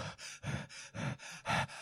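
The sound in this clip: Heavy, rapid breathing from a video game's point-of-view shot, heard alone as a fast, rhythmic run of in-and-out gasping breaths of similar loudness, breathy and panting.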